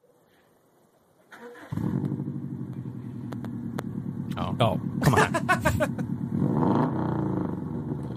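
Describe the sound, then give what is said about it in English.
A motor vehicle engine starts after about a second of quiet, then runs and revs continuously as a dense, loud low rumble to the end, with excited voices talking over it. “I don't think he's ever gonna gun it. We're just revving.”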